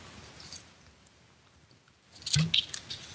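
Someone taking a sip of a drink: after a quiet stretch, a brief wet slurping and swallowing sound rises near the end.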